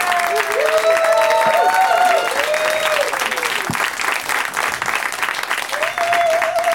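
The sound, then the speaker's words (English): Studio audience of only a few people applauding guests as they are introduced, loud, sustained clapping with several voices whooping and calling out above it. “I don't know if you guys are like professional audience members, but you're good. I hired them. Yeah, they are making seven people sound like 400.”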